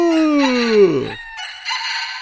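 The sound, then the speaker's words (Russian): A rooster perched on a gate crows loudly: one bright crow that slides downward in pitch, followed by a harsher, noisier rasping tail after a brief gap. “видит, сидит на воротах петух. И кричит во все горло. Ку-ка-ка-ку!”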